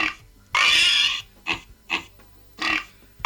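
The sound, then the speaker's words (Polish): Recorded pig oinking played through a low-quality doorbell speaker: one longer grunting squeal, then a few short, tinny oinks in an uneven rhythm. “Mamy świnie.”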